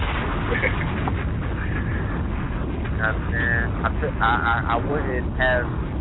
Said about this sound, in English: Hold on, you got a bomb coming your way.